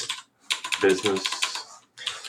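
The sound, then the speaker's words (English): Rapid clicking of typing on a computer keyboard, a busy patter of key presses with a couple of short pauses, mixed with someone talking over it. “This will be really cool because everybody will hear the key typing as well when you're talking.”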